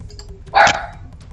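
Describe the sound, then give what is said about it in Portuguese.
A dog gives a single sharp bark that rises above a low, steady background rumble and then quickly fades. “Ele até latiu.”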